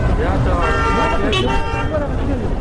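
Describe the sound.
A car horn gives a sustained toot in busy market street traffic crowded with people, cars and rickshaws, heard under a man talking over constant road noise.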